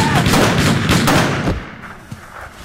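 Rapid gunfire in a comedy sketch: a dense volley of loud shots lasting about a second and a half, then cutting off into a faint, fading tail.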